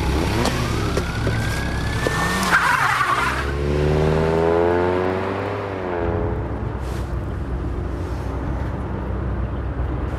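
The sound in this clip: A car speeds away from a scene ahead of arriving police, its engine revving hard with a climbing pitch over several seconds before the roar drops off under continuing road noise.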